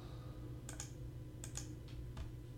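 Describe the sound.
Faint keystrokes on a computer keyboard as a Google search is typed, a few soft scattered clicks in small irregular clusters over a low, steady background hum.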